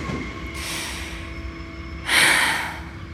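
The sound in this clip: A woman takes a deep breath while slumped on a bench on a train platform, a long airy rush of breath that swells louder toward the end over a steady low background hum.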